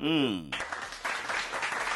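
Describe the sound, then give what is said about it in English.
A round of applause at a show, greeting a guest: a voice speaks briefly, then a crowd breaks into steady clapping that carries on to the end. “I beg a round of applause for Vazza for me.”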